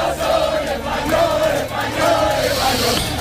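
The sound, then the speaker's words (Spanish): A crowd of tens of thousands of fans celebrates Spain's World Cup victory with a loud, continuous roar of cheering and shouting voices, swelling in chant-like waves throughout. “El ruido de decenas de miles, de cientos de miles de aficionados eufóricos por la victoria de España en el Mundial”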